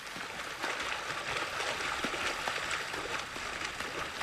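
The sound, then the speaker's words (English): A man swims through water: continuous sloshing and splashing with soft, irregular strokes, steady in loudness throughout. “He begins to swim toward her.”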